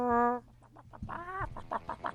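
Chicken clucking sound effect, opening with a sustained tonal call and then breaking into a run of short, rhythmic clucks, one of them drawn out, moderately loud and without talk.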